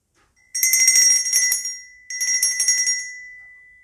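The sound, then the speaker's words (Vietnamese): A handheld bell is rung twice, each time giving a bright, high metallic ringing with a rapid fluttering pulse that swells at once and then fades, with a short silence between the two rings. “Ví dụ như bây giờ chúng ta cầm cái chuông này.”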